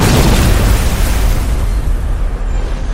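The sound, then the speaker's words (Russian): A loud explosion tears a hole at the waterline of an aircraft carrier, heard as a deep, continuous, roaring rumble that stays heavy throughout and eases only slightly toward the end. “Несколько секунд спустя оглушительным мощным взрывом вырвало огромную дыру у ватерлинии Блуры.”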